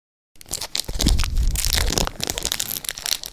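Crinkly tearing of a Pokémon trading card booster pack wrapper, starting after a brief silence and continuing as a steady, loud rip and crumple of thin foil plastic for about three seconds.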